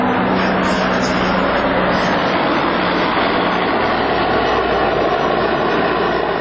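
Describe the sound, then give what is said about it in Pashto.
Military helicopters, a jet and a large reconnaissance plane of foreign forces circle over Marja, heard as a loud, continuous, broad engine roar that stays level throughout without breaks. “د مرجی پر اسمان د بارنیو ځواکونو دوه چورلکې، یوه جوټ او یوه هم ډېره ستره کشفي الوتکه ګرځي.”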